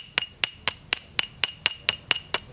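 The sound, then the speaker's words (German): Bright, ringing clinks of two stoneware pottery shards tapped gently together, ten evenly spaced taps in a steady rhythm, each a sharp hard click with a short high ring. “Auch der Klang gibt Auskunft darüber, aus welchem Material eine Scherbe besteht. Ich schlage die beiden mal vorsichtig aufeinander.”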